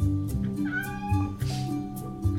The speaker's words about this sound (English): A ginger cat.